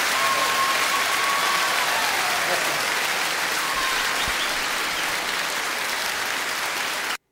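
Audience ovation for a French chanson singer, a thick, continuous wash of clapping that stays level throughout before cutting off abruptly at the end.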